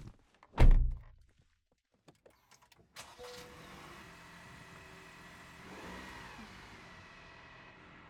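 Car door closing with one heavy thunk, followed by a few faint clicks, then the car engine starting and settling into a steady low idle that swells briefly before evening out, with no voices.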